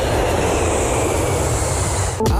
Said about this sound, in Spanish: Y con el avión nos vamos a México